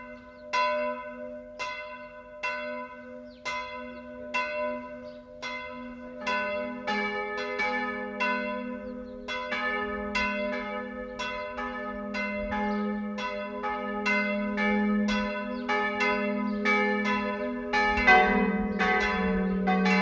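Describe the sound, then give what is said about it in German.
Church bells of the Martinsmünster in Fischbachau peal continuously, many overlapping strikes ringing out in a full, layered chime that swells slightly louder toward the end. “Das Geläut vom Martinsmünster Fischbachau ist nur eines von Tausenden im Archiv des Bayerischen Rundfunks.”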